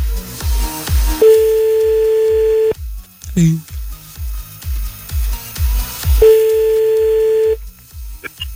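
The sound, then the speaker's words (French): Telephone line tones sound as a call is placed, with two long, steady, mid-pitched ringing tones separated by a gap. A regular low pulsing runs underneath the whole time. “Allez, c'est parti, on y va, on appelle.”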